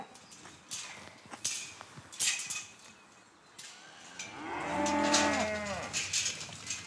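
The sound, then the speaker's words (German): A nine-year-old lead cow on a farm gives one long, low, drawn-out moo near the end, after scattered knocks and rustling. “Leitkuh Laura lebt in etwa genauso lange auf dem Hof wie er.”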